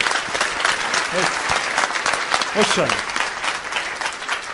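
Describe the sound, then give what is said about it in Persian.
Steady audience applause from many hands: a dense, continuous patter of claps that holds at an even, loud level throughout, with faint voices briefly audible underneath. “بزن اون دست قشنگه رو.”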